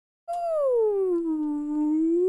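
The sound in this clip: A voice imitates whale song with one long, smooth 'ooh' that slides slowly downward in pitch, then lifts gently at the end, sustained alone without other sounds.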